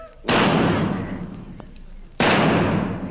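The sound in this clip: Two loud gunshot blasts serve as a radio comedy sound effect for shooting a fly off a wall, each bursting sharply and then decaying slowly over about two seconds.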